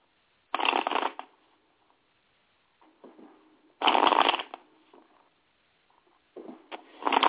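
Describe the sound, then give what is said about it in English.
A deck of tarot cards is shuffled in three crisp, riffling bursts separated by pauses, with softer rustles of handling in between. “All right, so we're going to go into the tarot card of the day. I'm getting ready to shuffle, see what type of energy I pick up on, and explain the energy of the day.”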